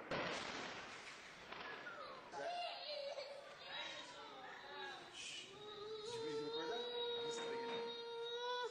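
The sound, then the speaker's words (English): A Lebanese child cries, terrorized by Israeli bombing, with loud, high, strained wailing sobs that rise and fall and run on almost without pause. “The sound of a Lebanese child being terrorized by Israeli bombing.”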